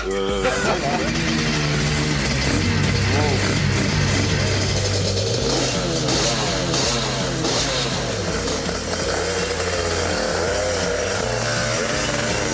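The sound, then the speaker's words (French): Motorcycle engine roars as the rider enters a race circuit in Murcia, loud and continuous with shifting revs and pitch. A man talks over the engine throughout. “Alors voilà, j'entre sur le circuit de Murcie-Lévy, au guidon d'une moto qui est mythique pour moi”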